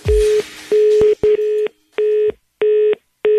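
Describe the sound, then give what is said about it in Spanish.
Telephone line tone on an outgoing call to a house: a steady, mid-pitched beep that repeats many times in a quick on-off rhythm, with a brief burst of noise at the start. “ahorita yo voy a contactar a tu mamá. Es que no contesta, le estoy marcando la casa.”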